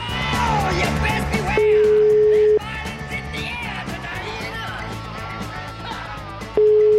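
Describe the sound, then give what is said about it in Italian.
Ringback tone on a telephone line with a faulty phone system, heard while repeatedly calling: two steady mid-pitched beeps, each about a second long, the second cut off at the end, over busy background sound. “Sì, continua a chiamare perché l'impianto telefonico evidentemente non è a posto.”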